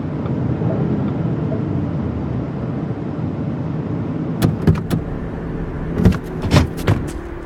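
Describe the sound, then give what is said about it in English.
A car pulling into a gas station gives a steady low engine rumble throughout, with a few sharp clicks and knocks toward the end. “Yo, I gotta pull up in this gas station right quick.”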